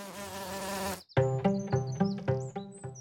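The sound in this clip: Honeybees buzzing: a steady, quiet, harmonic drone for about a second, then a brief gap and a series of pulsing, rhythmic buzzes that rise and fall in loudness.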